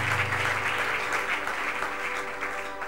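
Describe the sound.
Steady applause from a church audience acclaiming God during a worship service: a dense, continuous patter of clapping at even loudness from start to finish, without breaks.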